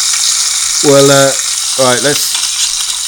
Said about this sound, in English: Let's get the mushrooms and tomatoes going in the pan as well.